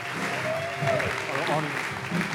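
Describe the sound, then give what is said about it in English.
Audience applause welcoming a pastor to the stage at a church, a steady, dense patter of clapping with voices heard over it. “And so I want us to put our hands together and welcome a wonderful man of God, Pastor Corey Turner.”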